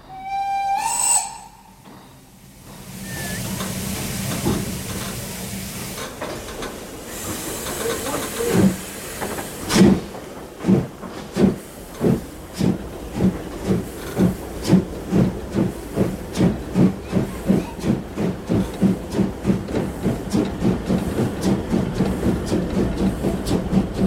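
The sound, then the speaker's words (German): A steam locomotive gives a short, shrill whistle, then steam hisses as the train departs. Regular puffing chuffs start slowly and become quicker and steadier. “Wenn die Lokomotive noch mal pfeift.”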